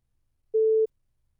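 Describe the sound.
A telephone line gives a single short, steady, mid-pitched beep, clean and alone against silence.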